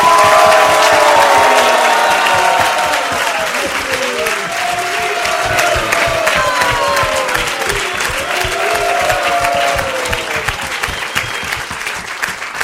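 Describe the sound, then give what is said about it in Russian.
Stormy audience ovation, loud sustained clapping blended with cheering and whistles that rise and fall, holding strong across the whole stretch and easing only slightly toward the end. “Особенно бурные овации. For Bakasura.”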